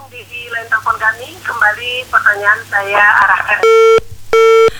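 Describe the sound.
A busy tone sounds on a call-in telephone line after the call is cut off. Two steady, loud electronic beeps follow a stretch of voice.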